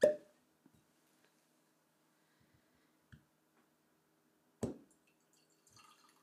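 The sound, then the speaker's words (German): Pops and clicks as a bottle of whisky is opened: a sharp pop at the start, a smaller knock midway and another sharp pop later, with a few faint clicks between and no talk. “Moment, ich mache mal hier die erste Flasche auf.”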